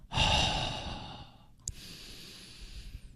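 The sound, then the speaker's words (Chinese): A deep breath drawn in, then a slow exhale, as in a diaphragm breathing exercise. Both are soft, breathy rushes of air with a short pause between them and no talking. “其实我建议如果你到极致的时候吸气，然后到末端开始尝试呼气，”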